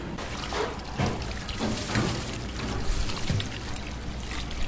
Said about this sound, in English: So these tomatoes have already been washed, but I like to give them another wash because food safety.